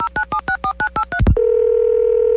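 A telephone number being dialed: eight short touch-tone beeps in a quick, even rhythm, then a brief noisy burst and a steady, continuous line tone.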